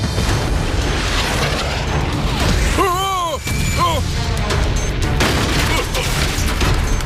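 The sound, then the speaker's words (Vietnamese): Gunfire rattles in a dense, continuous barrage of loud bursts that carries on without a break, with a couple of brief vocal cries rising over it midway. “Được rồi đấy, bây giờ bắn.”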